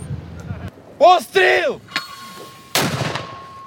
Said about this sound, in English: One mortar round off, the crew prepares for the next.